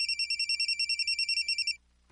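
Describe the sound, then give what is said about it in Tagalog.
A mobile phone ringtone plays as a fast, high-pitched electronic warble of many rapid, even pulses. It rings loudly on its own and then cuts off abruptly. “Oh, akong cellphone kinsa makaning nanawag.”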